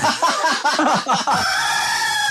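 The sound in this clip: A rooster crows loudly, a choppy run of harsh, rasping notes that ends in a long, sustained high tone, with no other sounds around it.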